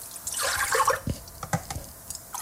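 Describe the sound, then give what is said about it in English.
Milk poured from cups into a pot while making bannock: a short, splashing pour followed by a few light drips. “Pouring the milk in cups into the pot.”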